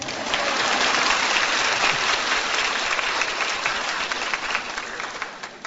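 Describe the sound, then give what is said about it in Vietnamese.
Audience applause fills a hall in Houston, Texas: thick, steady clapping from many people that stays strong before tapering a little near the end. “Quý vị có khỏe không? Quý vị có vui không? Vui mà răng không vỗ tay.”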